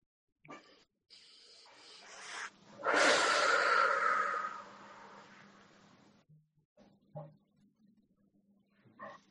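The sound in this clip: A deep breath is taken at the close of a guided meditation: one long, loud, rushing breath, framed by fainter breathy sounds and small soft noises.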